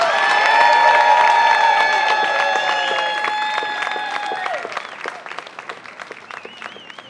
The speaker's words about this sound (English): Let's hear it for Tom Sitter.